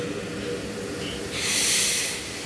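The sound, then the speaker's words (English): A deep breath taken during a grounding exercise: one breathy rush of air swells, holds briefly and fades away. “we can start by just taking a deep breath, right? Deep breath.”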